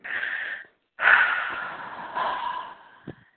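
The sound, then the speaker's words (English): A deep breath, heard alone: a breathy inhale, a brief pause, then a long, loud exhale that gradually fades away. “Deep breath.”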